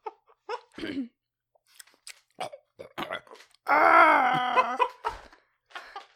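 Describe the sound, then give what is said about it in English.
Character death sound effect from a Lego Star Wars video game: a string of short vocal grunts and squeaks, then a long, loud, drawn-out groaning moan, followed by a few more brief vocal noises. “That's a audio clip of Yoda dying in Lego Star Wars.”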